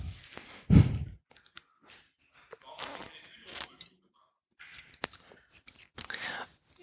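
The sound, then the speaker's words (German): Fresh cress being chewed gives crisp, crunchy munching in irregular bursts with brief pauses between bites. “Ja, die Kresse schmeckt einwandfrei.”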